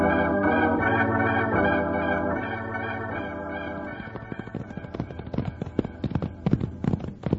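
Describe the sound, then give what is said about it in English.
Galloping horse hooves in a radio drama: a held musical chord gives way to rapid, sharp, irregular clattering beats that grow louder toward the end. “There he goes. He's riding a white horse. Run for the horses, Jingles.”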